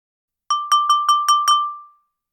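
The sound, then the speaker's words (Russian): A spoon taps a drinking glass six times in quick, even succession at a dining table in a great hall. Each bright clink rings into a clear sustained tone that fades out after the last tap, with no other sound. “Драко Малфой снова постучал ложкой по стакану, привлекая внимание”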